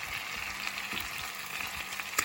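Steady sizzle of food frying in a pan while it is flipped with a fork, with a few brief knocks against the pan and no talk.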